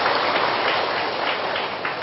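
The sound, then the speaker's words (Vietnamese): Applause fills a Buddhist ceremony in Bến Tre, Vietnam, welcoming a visiting venerable monk lecturer. The clapping forms a dense, even, rain-like patter from many hands that stays steady throughout. “xin quỳ cho một tràng pháo tay nữa”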